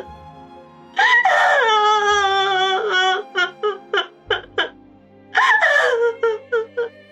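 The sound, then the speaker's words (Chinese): A girl bursts into tears with a long, loud, high wail. Short, jerky sobs follow, then another drawn-out wail and more broken sobbing, all loud and alone. “子双忽然哇的一声哭了起来，似乎要把所有的委屈都借此发泄出来。”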